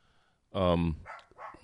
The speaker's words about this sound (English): Got the little dog barking now.